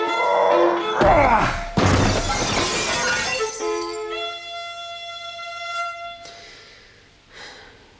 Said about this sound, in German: Schmeiß diesen scheiß Schreibtisch durch das scheiß Fenster.